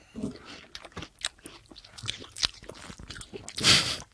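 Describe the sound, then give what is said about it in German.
Someone eating melon, with a series of faint, quick bites, crunches and wet squishes at an irregular pace, ending in a louder, juicier crunch. “Ich fange schon mal an, Melone zu essen.”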